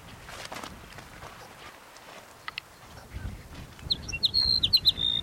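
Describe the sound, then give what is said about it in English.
Sage Sparrow song: a short burst of quick, high-pitched chirping notes that comes in near the end after a quiet stretch of soft background rustle. “Sage Sparrow number 5.”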